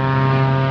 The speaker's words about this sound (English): This is the sound of a twin-engine King Air taking off, like the one piloted by two Washington State troopers on the afternoon of Wednesday, June 8th.